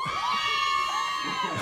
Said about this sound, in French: Donc on est bien là en direct de la place avec un public en délire. Ah ouais! Ah, ça fait plaisir. En effet, ça s'entend.